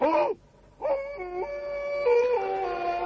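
Distant howls in the night near a dark cabin under moonlit trees: a short tonal wail, a brief silence, then a longer sustained howl that steps between a few pitches, with no talk.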